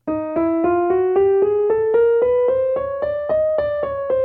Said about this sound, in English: chromatic scale. That scale sounds like this.